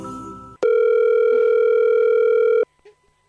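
Unanswered telephone call: one steady electronic ring tone lasting about two seconds, starting and cutting off abruptly. A brief burst of sound comes before it and faint clicks follow.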